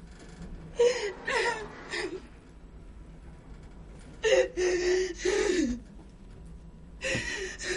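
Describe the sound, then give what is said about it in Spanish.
A young woman cries in an elevator in front of a mirror, with gasping, whimpering sobs in three bursts separated by quieter, shaky breathing. “Entra en el ascensor, donde continúa llorando compungida, viendo su imagen en el espejo.”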